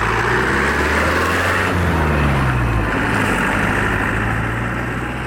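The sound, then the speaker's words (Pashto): Steady, loud engine drone of an old motorcycle riding at high speed, continuous throughout, with a low tone gliding downward midway. “محمد لالا د خپل زړه موټر سایکل په واسطه په خورا تیزی روان دی”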